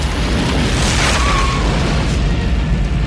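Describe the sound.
A heavy, rumbling boom as a fiery missile strikes a tree and brings it down, swelling into a loud, sustained roar that peaks early and keeps rolling to the end.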